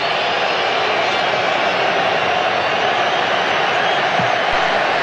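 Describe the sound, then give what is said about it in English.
Stadium crowd booing at the Azteca during a tense Mexico football match, heard as a loud, steady, wide roar of massed voices that holds at an even level from start to finish with no clear breaks. “the boos echo around the Azteca”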